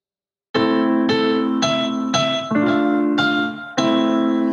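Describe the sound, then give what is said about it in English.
Familiar nursery tune played in a minor key as seven clear, ringing notes, each struck and left to decay before the next, in an even, moderate rhythm after a short silence. “well, I could take the tune and put it in a minor key, which would sound something like this.”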